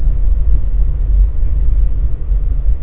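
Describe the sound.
Car engine while driving along: a steady, low rumbling drone with a slightly uneven, churning texture that holds without change throughout and has no voices over it.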